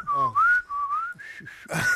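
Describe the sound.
A person whistles a short, wavering tune of a few sustained notes with gliding pitch, a little breathy and unsteady, and it ends in an airy, hissing note.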